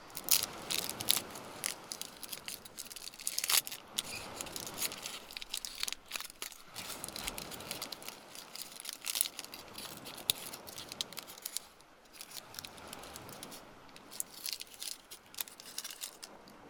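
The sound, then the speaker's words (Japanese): Someone biting into and eating food: faint crunching and crackling bites and chews repeat steadily throughout, many small crisp snaps with no talk. “食べてみます。どんな味がするんだろう。”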